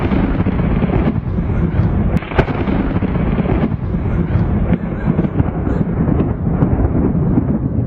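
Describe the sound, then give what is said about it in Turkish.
Thunder rolls during a heavy downpour with lightning in Alanya, Antalya: deep rumbling booms over a constant roar of rain, broken by a few sharp cracks. “Antalya'nın Alanya ilçesinde sağanak yağışla birlikte şimşekler çaktı.”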